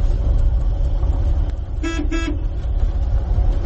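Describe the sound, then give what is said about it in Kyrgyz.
Two short car horn toots ring out over a steady rumble of vehicle engine noise as a car arrives in a mountain village. “бул жолу айылдан бизди машина менен тосуп алып таң калтырышты”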